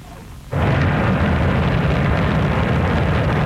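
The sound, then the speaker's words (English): The Shenzhou 23 rocket blasting off from the Jinghu Quan Launch Center in Inner Mongolia: after a brief quiet start, a sudden, loud, deep roar kicks in and holds steady and rumbling to the end. “That's the sound of China's Shenzhou 23 rocket blasting off on Sunday from the Jinghu Quan Launch Center in Inner Mongolia.”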